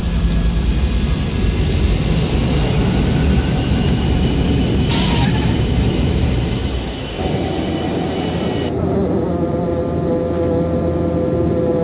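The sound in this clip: An airplane coming in to land gives a loud, steady roaring rumble that shifts to a smoother, thinner tone about two-thirds of the way through and continues to the end.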